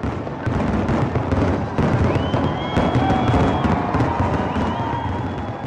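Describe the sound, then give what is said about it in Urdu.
Fireworks at a grand nighttime display: dense, continuous crackling and popping with high, sustained whistling tones, loud throughout with no pause. “اور رات 9 بجے شاندار آتش بازی۔”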